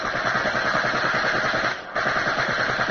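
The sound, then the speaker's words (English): Rapid machine-gun fire from a bomber's tail gunner shooting at an attacking German Messerschmitt: a dense, loud, continuous rattle with a brief break near the end before the burst resumes. “Attention, tail gunner. German Messerschmitt coming at us due east. Tail gunner to pilot. Messerschmitt in sight. Have him covered. Pilot to tail gunner. Good. Open fire at will.”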